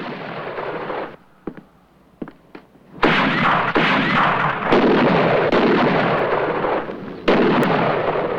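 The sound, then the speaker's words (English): Gunfire in a shootout at a hotel, with snipers firing from a rooftop. A few sharp, isolated cracks come first, then loud, dense and sustained bursts of shots that run almost without pause. “Another bullet brings down a roof sniper.”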